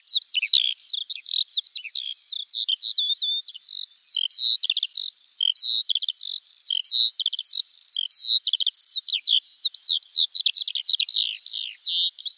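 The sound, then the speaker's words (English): Skylark song: a high, continuous stream of rapid chirps, trills and warbled notes that runs without pause, clear and alone. “Anyone that has heard a lark singing couldn't but be taken with it.”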